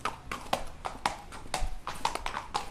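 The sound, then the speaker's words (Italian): Hooves clip-clop on a racetrack as horses train at San Siro, a steady run of many sharp, hollow knocks in an uneven, lively rhythm, with no voices. “sulla pista di San Siro, circondati da tanti bellissimi cavalli che si stanno allenando”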